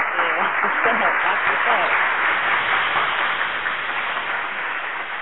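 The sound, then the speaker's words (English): Audience applause rolls on as a dense, continuous wash of clapping with a man talking over it, the whole sound thin and muffled, easing off a little toward the end. “that's a big round of applause right there, too.”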